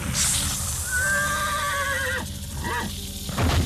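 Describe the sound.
A horse neighs in a long, loud whinny that slides downward in pitch, followed by shorter wavering calls and a soft rumble of hooves beneath.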